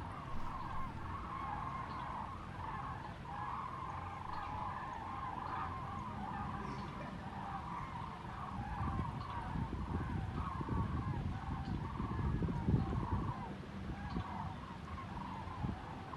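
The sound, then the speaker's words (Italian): A large flock of birds calls in flight: many overlapping honking cries blend into a continuous, fairly faint chorus over a low rumble that swells in the later part. “È uno stormo, tra l'altro, molto nutrito. Avete potuto ascoltare i loro versi.”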